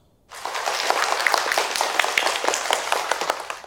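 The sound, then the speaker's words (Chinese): Classroom applause as students clap for the winning team at a heritage-ambassador award. The clapping starts abruptly, then stays dense, bright and steady until the end. “现在我宣布，获得最佳申遗大使团的是红桃国族，”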